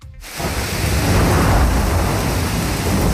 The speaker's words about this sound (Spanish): Este es el sonido de la lluvia y el granizo a esta hora, tanto en la capital como en otros muchos puntos de la región.